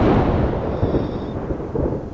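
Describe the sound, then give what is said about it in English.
Rain falls with rumbling thunder: a dense, low roar that holds throughout, with a few brief swells in loudness. “it starts to rain.”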